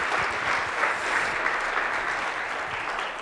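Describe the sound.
Applause from an audience welcoming a speaker at Eastern Nazarene College: a steady, dense wash of clapping that holds at an even level from start to finish, with no voices over it.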